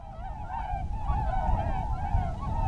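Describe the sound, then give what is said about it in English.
Tundra swans call with wavering, nasal honks that overlap into a continuous chorus, heard faintly over a low rumbling background. “The opening and closing sounds are tundra swans, a North American species whose Berwick swan subspecies is found in Ireland and Wales.”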